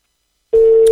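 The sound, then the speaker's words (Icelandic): A telephone line tone sounds as a call is placed to a guest: half a second of silence, then a single steady mid-pitched tone that starts abruptly and holds unchanged to the end. “þá ætli ég að hringja í kappan”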